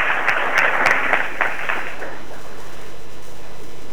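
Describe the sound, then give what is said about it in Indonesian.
Audience applause for a speaker introduced at a panel, with a burst of brisk clapping over the first two seconds that quickly thins and fades to near quiet. “Berikan aplaus yang meriah.”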